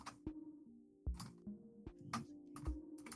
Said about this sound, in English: I just typed in skinny cryptid on Google.